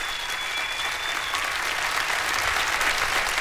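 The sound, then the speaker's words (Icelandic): An audience applauds a performer at an anniversary concert in Harpa concert hall, Reykjavík. The clapping is dense and steady, a continuous wash of many hands that holds at an even, moderate level from start to finish. “klappiði fyrir honum bara”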